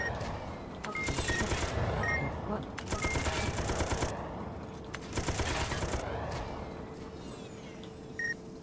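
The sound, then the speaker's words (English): Machine-gun fire in an aerial combat video game arrives as several long bursts of fast, rattling shots over a constant engine-like drone, with short pauses between bursts. “Alright, going up. Shooting him. Oh, I think he's dead.”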